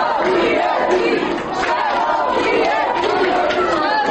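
Several dozen students gathered outside a university rector's office shout together in a dense, loud crowd roar that runs steadily through the whole clip without a break.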